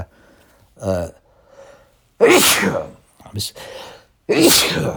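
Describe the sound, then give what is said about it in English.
Someone sneezing a few times in a row during a conversation, sharp, loud explosive bursts separated by short breathy inhales and quiet pauses. “sorry about the sneezing. I'm talking about a doctor and I'm sneezing.”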